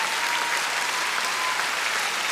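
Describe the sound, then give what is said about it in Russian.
An audience applauds after a song performance, with dense, steady clapping that stays loud and even throughout. “Ваши аплодисменты.”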